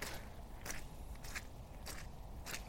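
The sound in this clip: Five quiet, evenly spaced crunching footsteps of someone walking through a dark forest at night, each step a short, crisp rustle over a faint background hiss.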